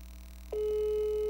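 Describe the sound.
A telephone ringback tone heard while placing a call: after a brief near-quiet start, a single steady mid-pitched tone switches on about halfway through and holds evenly to the end, with no one talking.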